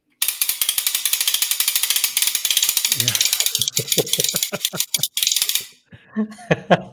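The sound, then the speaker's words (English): Hand-cranked ratchet sound effect mounted on a bass drum, giving a long run of rapid, loud mechanical clicks that later breaks into slower, spaced bursts of clicks. “This is probably the best ratchet. Just think about somebody like cranking up something or gear.”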